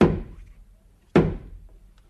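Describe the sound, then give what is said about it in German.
Two heavy, dull thuds of knocking against a house door, the second coming just over a second after the first, each one sharp at the start and then quickly dying away into quiet. “Dann schlage ich noch mal an das Haus, damit die Mutter kommt heraus.”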